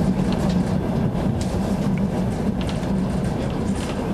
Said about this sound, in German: In der transsibirischen Eisenbahn fahren wir in die Stadt